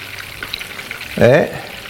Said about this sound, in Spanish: Si freímos mucho tiempo las albóndigas, evidentemente pasan más hechas aquí, pero quedan más secas. Con lo cual, a mí lo que me gusta es freírlas un poquito,